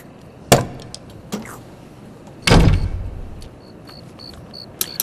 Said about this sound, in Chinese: 把门关上。